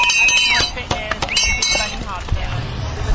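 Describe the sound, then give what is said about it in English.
Children ring bells at the barriers of a cyclocross race, producing quick, irregular metallic clanging and clinking with bright ringing overtones over a busy outdoor background. “It's really entertaining watching cyclocross, and especially when you get these kids out here. Kids and bells, a volatile combination at the barriers.”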